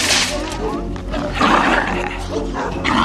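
The dog Beethoven barks in a film scene. The barks are deep and loud, close to roaring and growling, and come in a few heavy bursts.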